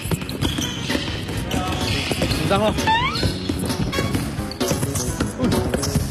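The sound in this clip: A basketball bounces repeatedly during layup practice on a court, its thuds coming in a busy, uneven rhythm mixed with voices and other court noise.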